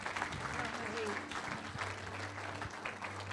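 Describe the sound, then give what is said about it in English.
Audience applause welcoming a speaker to the stage: dense, steady clapping that holds at an even loudness throughout, with a voice faintly audible over it. “why don't you put your hands together and give a really, really warm welcome to Cindy Ruakere.”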